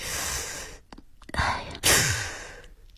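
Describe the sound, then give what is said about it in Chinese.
Male soldiers suck air in sharply through their teeth in hissing breaths: a few breathy hisses of varying length, loud and alone. “尤其是男兵们嘴里还不由得嘶嘶吸气”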